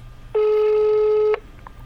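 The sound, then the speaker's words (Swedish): Ringback tone of an outgoing telephone call: one steady mid-pitched tone lasts about a second, then stops, leaving near silence. “vi ska ringa upp Emily här som har varit med i programmet tidigare”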